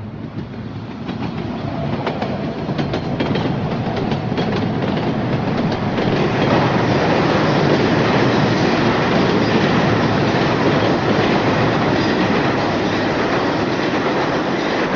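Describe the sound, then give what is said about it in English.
An express subway train from the Bronx runs on its rails with a loud, continuous rumble and a steady clickety-clack. The sound stays dense and unbroken throughout, with no voices. “The 415 Express from the Bronx, safe and sound”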